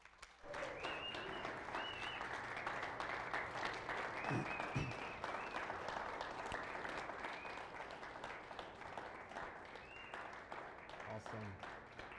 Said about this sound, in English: So would you give a big Calvary welcome to Tanner Sherlock this morning?